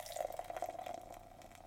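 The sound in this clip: Cream ale of 5.0% alcohol being poured into a glass, building a foamy head: a faint, steady trickling and splashing of liquid that runs without a break.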